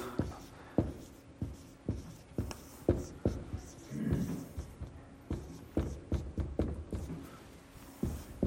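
Handwriting: a pen scratches across paper in many short, sharp strokes in an uneven rhythm, with a longer scribbled stretch near the middle. The strokes sound fairly quiet and come with no talk.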